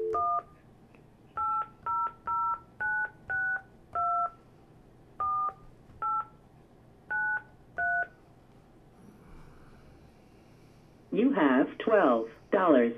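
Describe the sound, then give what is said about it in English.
Telephone keypad tones dial a dial-in number for a calling-card call: eleven short, clipped two-note beeps in an uneven rhythm with brief pauses, then a voice speaks at the end. “Now, you want me to dial in without the card number? Yeah, I can do that.”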